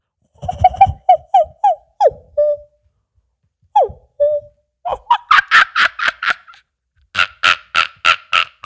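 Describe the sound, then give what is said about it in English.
A person's voice imitating bird and animal calls: a series of short, hooting whistled notes, followed by bursts of rapid, higher-pitched chattering calls, with brief pauses between phrases. “try to talk to animals and birds, try to imitate their sounds, like”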